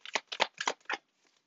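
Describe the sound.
A card is drawn from an oracle card deck, making a few quick papery swishes and rustles in close succession before the sound fades to quiet.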